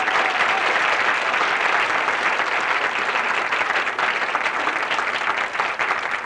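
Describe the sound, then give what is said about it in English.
An audience applauds to welcome an eight-member vocal ensemble, a dense, steady wash of many clapping hands that holds at an even level for about six seconds with no voices on top. “I'd like to welcome, and I hope you join me with welcoming Chanticleer, and we have 8 of them.”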